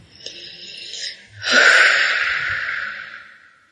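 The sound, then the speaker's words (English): A deep breath taken during a guided tapping exercise: a soft, airy inhale followed by a louder, breathy exhale that slowly trails off. “Take a deep breath.”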